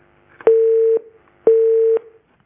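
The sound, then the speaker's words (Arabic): Telephone tones sound as a dropped call is redialed: two loud, steady, mid-pitched beeps, each about half a second long, separated by a short gap. “اتصال انقطع، الاخ يعاود الاتصال مرة ثانية”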